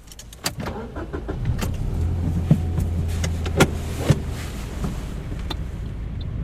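A car pulls away during a driving lesson with the handbrake still engaged, a low steady engine drone carrying a few sharp clicks and knocks from the cabin.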